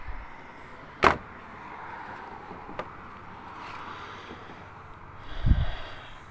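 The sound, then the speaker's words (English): A gate to a deck being handled and closed: a sharp clack rings out early, a faint tick follows, and a low thump lands near the end, over a quiet background. “So we're going to open the gate to my deck. We'll step outside off the deck, closing the gate.”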